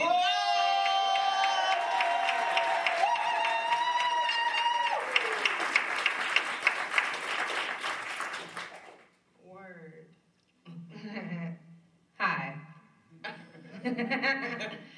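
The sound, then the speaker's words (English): Audience applause welcoming a performer onto the stage at a live show, a dense, steady wash of clapping that runs for about nine seconds before a person begins speaking. “They deserve all the love and applause that you can send. So please put your hands together for Aziza”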